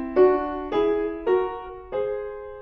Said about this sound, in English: Parallel thirds would sound like this.